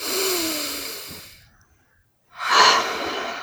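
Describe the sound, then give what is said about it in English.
A deep breath taken during a calming tapping exercise: a long, audible inhale that fades away, a pause of near silence, then a strong, breathy exhale. “Deep breath.”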